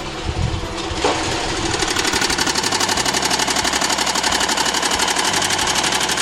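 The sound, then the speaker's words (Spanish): A sewing machine stitches a garment placket, running as a steady, rapid mechanical chatter with an even rhythm that carries on without pause. “Y bueno, aquí pues ya vamos a hacer a coserlo. A coser aquí.”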